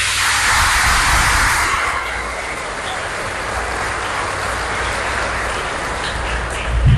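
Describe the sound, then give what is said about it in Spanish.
Applause from an audience during a Catholic Mass: a dense, hissing wash of clapping that is strongest over the first two seconds, then settles into a steady, slightly softer roar that lasts to the end. “Un aplauso a Dios.”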